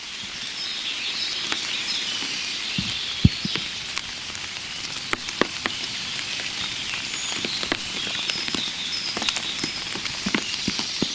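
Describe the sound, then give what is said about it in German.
Water drops falling in a steady, irregular patter of many small ticks and plinks, with a few louder, deeper drips standing out and faint bird calls in the background. “Und natürlich Wassertropfen.”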